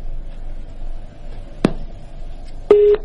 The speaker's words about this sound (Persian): بله متاسفانه خط ما قطع شد.